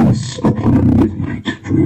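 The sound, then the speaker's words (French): Sean Connery's voice cross-synthesized by computer with a lion's vocal cords: a deep, growling, roar-like spoken phrase, loud and rough, delivered in a few bursts separated by brief pauses. “Et ça, c'est fait par une méthode qui s'appelle synthèse croisée. Que pensez-vous, Jean Habitbol, du résultat synthétisé par ordinateur de cette greffe de cordes vocales de lion sur Sean Connery ?”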